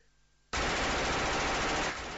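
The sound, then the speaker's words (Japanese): A sudden hail of gunfire erupts as many guns open fire at once, a dense, loud, continuous roar of shots that cuts in abruptly after near-silence, holds steady, then eases slightly near the end. “豪雨のような銃声が一斉に鳴り響き、グレンとアレックス”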